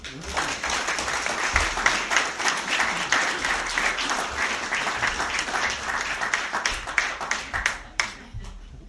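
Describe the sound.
Applause welcomes a guest speaker back to Washington County for a museum talk on the Civil War. Individual claps stand out within a lively, uneven patter that holds steady, then thins and stops near the end.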